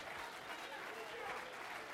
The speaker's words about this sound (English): let's clap our hands and lift our voice.